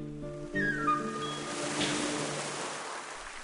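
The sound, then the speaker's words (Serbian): Soft wash of sea waves surging and receding, with a faint sustained tonal drone and a few brief high whistling sounds early on. “Čuješ li? Šta? More, šta drugo? Kako uzdiše, ječi”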